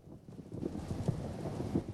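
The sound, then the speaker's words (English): Rain batters a single-story house: a continuous, fairly faint wash of low rumbling noise that rises slightly after the first half second and holds steady, with no voices. “Their single-story house is battered by rain.”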